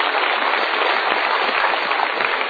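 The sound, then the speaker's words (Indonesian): Audience applause fills the whole clip: a dense, steady wash of many hands clapping for about two and a half seconds, holding an even loudness with no voices on top. “Oke, kita berikan tepuk tangan.”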